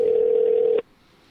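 A telephone call going to voicemail gives a single steady mid-pitched tone lasting under a second, which cuts off abruptly into near silence.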